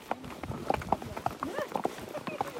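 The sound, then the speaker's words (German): Horse hooves clip-clop at a steady walking pace during a hike through the Swiss mountains, with many even, regular beats and talk mixed in. “Und so wandern wir im Takt der Hufe.”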